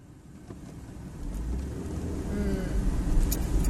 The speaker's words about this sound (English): I'm driving down a lonely country road right on the Wyoming-Nebraska border.